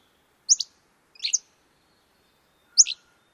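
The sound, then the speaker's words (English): Hammond's flycatcher song, a tyrant flycatcher, in three parts: three short, high-pitched, buzzy two-note phrases. The first two come close together and the third follows after a longer pause, against near silence. “in Hammond's sounds a lot like part A, but has a burry quality to it. It goes down at the end rather than rising like a question. So let's listen one more time.”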